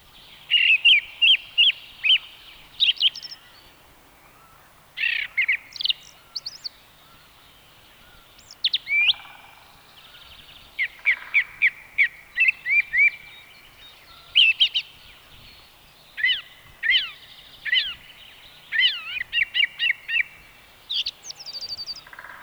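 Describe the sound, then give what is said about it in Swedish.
A song thrush sings on its own in a long run of many bright, high-pitched phrases, each a quick cluster of repeated notes, separated by short pauses over a faint background hum. “nu följer taltrast”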